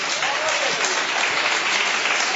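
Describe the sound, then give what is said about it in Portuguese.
A church audience clapping hard and loudly, a dense, steady wash of many hands that continues without a break from start to end. “Pode assentar e bater as palmas bem forte para Deus, irmão.”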